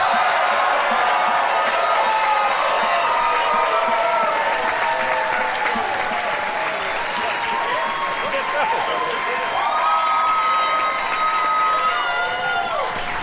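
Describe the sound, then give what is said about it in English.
Loud, sustained applause and cheering from the audience of a live show at the Bell House as they rise in a standing ovation. Continuous clapping runs throughout, with whoops and voices over it. “They're standing up, I should say. Amazing. Jason is giving you a standing and walking out of the room ovation.”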